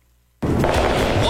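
Fireworks explode at a large July 4th riverfront display in Evansville. After a brief quiet comes one sudden loud blast, followed by a sustained, dense crackling rumble.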